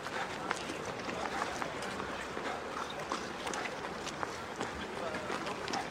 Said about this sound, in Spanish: Alex trota alrededor del patio entre otros prisioneros y guardias armados.